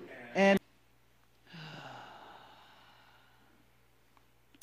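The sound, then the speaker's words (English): A deep breath drawn in during a guided meditation: a short vocal sound, then a long, soft, breathy draw of air that fades over about two seconds. “Yeah, breathe that in.”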